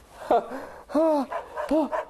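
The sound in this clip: A dog barks a few times in short, tonal, whining barks. Each bark has a bright harmonic arch, and there are softer sounds between them.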